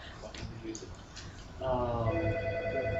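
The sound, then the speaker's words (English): A mobile phone rings partway through, its bright, repeating electronic ringtone rising over the murmur of several people talking. “but is that my phone? Is that my damn phone?”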